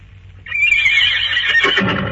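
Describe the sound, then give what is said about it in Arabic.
A wild mare on a seashore gives one long, loud whinny. It rises suddenly out of a low background hum, quavers, and stays strong for well over a second. “اتهيالي اني سمعت حصان بيسهر. الله، ده صوت حصان ولا انا بتهيالي؟”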